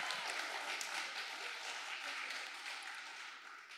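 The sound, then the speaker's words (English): Soft, steady audience applause for a speaker, with dense clapping running throughout and easing slightly toward the end. “Make some noise for Doug.”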